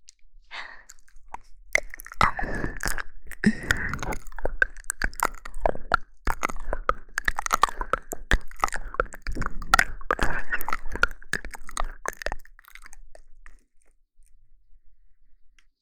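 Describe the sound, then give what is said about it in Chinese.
Wet chewing of a breakfast meal, with many soft, irregular smacking clicks and squishes close together, heard alone without talk before fading into quiet at the end. “这是妈妈专门为你做的营养早餐，来，趁热快点吃吧。”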